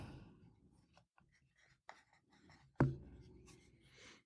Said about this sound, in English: I see you writing more than me.